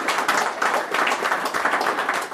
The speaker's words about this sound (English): Cottle Heffernan, give him a round of applause.